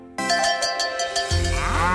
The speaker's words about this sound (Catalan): A l'Agenda del Pagès 2025, les vaques de llet.